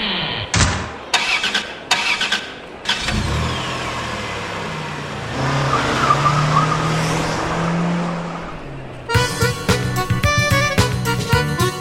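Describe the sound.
A car engine starting and pulling away as a private cab in St Petersburg drives off: a few sharp knocks, then a steady mid-pitched engine drone that builds and surges before changing near the end.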